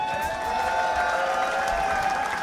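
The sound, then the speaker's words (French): Audience applause at a concert, called for to honour a record label's team, a soft, diffuse patter of clapping under a sustained musical tone that holds steady throughout. “je voudrais un tonnerre d'applaudissements pour toute l'équipe d'Heavenly Sweetness, s'il vous plaît.”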